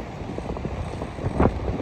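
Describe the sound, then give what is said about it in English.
Strong wind in Morocco buffets the microphone in a steady, rough rumble. The gusts swell briefly near the end and no one talks. “It's a very strong wind, but the temperature is still”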